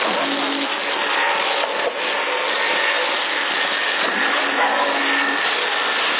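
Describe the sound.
Airplane passing overhead, heard through a CB radio transmission in Sassari: a continuous, loud, band-limited droning roar that holds nearly level throughout, with one brief dip partway through and no talk.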